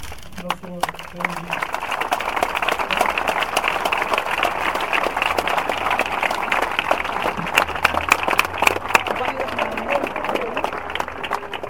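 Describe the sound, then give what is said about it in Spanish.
Applause from a crowd offered in tribute at a memorial gathering, steady dense clapping sustained throughout at moderate loudness, with scattered sharper claps standing out from the even wash. “Nuestro sincero aplauso va dirigido a tu gran aporte popular.”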